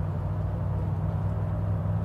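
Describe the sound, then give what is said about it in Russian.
A car engine rumbles low and steady as the car drives and turns toward a hotel, a continuous deep hum with no other sounds standing out. “Машина поворачивает к отелю.”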